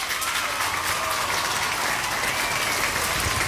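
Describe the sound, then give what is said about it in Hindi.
Applause sound effect played as a reward for correct quiz answers, a steady, fairly loud burst of many hands clapping that holds evenly for several seconds. “आप सभी ने यहाँ पे सही जवाब दिया तो आपके लिए बजेंगी तालियां,”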